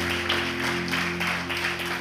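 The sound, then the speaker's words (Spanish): Rhythmic audienceal clapping during a church service, praising the Lord, with regular hand claps landing in a steady beat over a sustained low tone. “Fuerte aplauso al Señor, si en realidad usted está agradecido”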